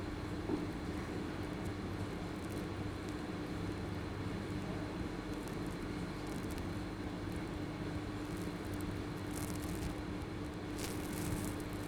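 A metro train rumbles past in a steady, continuous low roar that holds level throughout, with a few faint, higher clicks and rattles on top.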